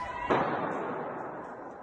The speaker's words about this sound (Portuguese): Dentro do teatro, mais tiros.